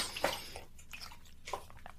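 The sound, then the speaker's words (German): Someone takes a sip of a drink, making a few soft, wet mouth and swallowing sounds. They are quiet and come in short bursts with no talking over them. “Dann trinke ich vorher mal einen Schluck.”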